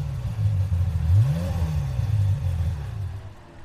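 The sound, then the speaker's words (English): A Ferrari 355 sports car engine revs: a mid-pitched engine drone climbs sharply in a quick rev, then settles into an even hum that eases off slightly at the end. “Ferrari 355 with the road safety vehicle at the back”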